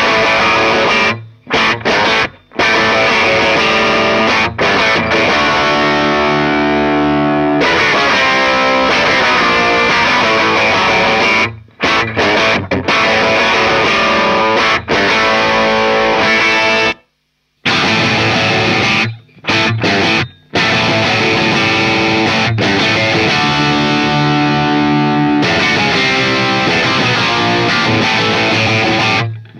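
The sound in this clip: Distorted electric guitar riff played through a speaker cabinet, loud and dense with chugging chords, broken by several brief stops and a longer pause near the middle.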